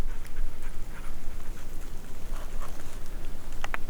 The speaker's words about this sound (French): Ah, un chien, j'aperçois un chien, peut-être que c'est le chien du gardien, oui, peut-être.